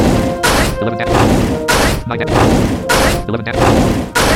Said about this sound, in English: Select an action for Xylophile. Attack. Foe Beowulf has 29% health. Level 2 is a move. Fireball Flurry.